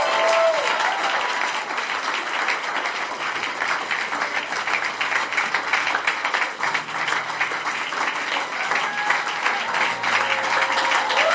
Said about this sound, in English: Clap for them.